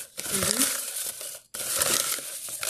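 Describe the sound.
A folded slip of paper is picked up and unfolded, giving a continuous crinkling, crackling rustle that pauses briefly midway, then resumes.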